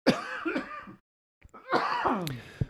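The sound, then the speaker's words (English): Coughing in two harsh bursts, several coughs with some throat-clearing, separated by a short silence and fairly loud. “coughing brought to you by Pfizer.”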